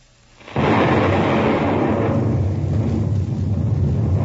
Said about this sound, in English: let us test this Krakenite bomb.